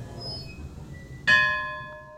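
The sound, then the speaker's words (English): A bell rung once in an art gallery's artist loft, a single bright metallic strike whose ring decays slowly over a quiet background. “And a bell. And a bell.”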